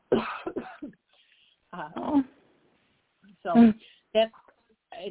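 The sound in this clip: Throat clearing prompted by a tickle in the throat: a few short, rough coughing clears come in separate bursts with pauses between them, the later ones sharper and louder.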